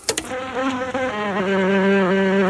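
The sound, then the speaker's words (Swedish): A large bumblebee queen buzzing in a loud, steady drone that holds an even pitch throughout, following a few brief clicks at the start. “Det är alltså den 2 augusti 1975 och jag har fått en stor humlehona.”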